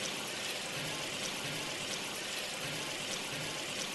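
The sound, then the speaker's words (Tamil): Liquid pours in a steady, unbroken stream as soaked tamarind water goes into a Chettinad kuzhambu. The trickling splash is soft and even throughout, with no voices. “இது நல்லா வதங்கினதுக்கு அப்புறமா நீங்க ஊற வச்சிருக்க புளிக்கரைசலை எடுத்து ஊத்திக்கோங்க.”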